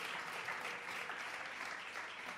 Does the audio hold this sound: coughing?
no

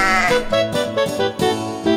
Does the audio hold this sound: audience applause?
no

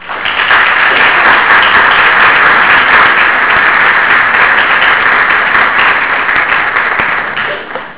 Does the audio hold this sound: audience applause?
yes

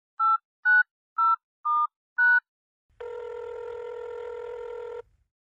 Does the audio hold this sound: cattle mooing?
no

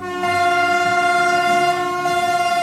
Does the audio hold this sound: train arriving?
yes

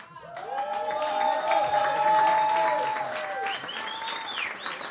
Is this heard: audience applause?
yes

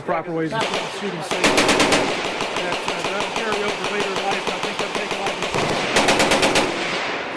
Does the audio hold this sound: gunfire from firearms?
yes

